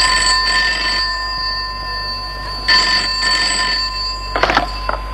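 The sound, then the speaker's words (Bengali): A telephone rings in short bursts, two clear trilling rings followed by a sharper third ring, bright and fairly loud over a low steady hum, with no talking. “দেখো আবার phone এলো কার।”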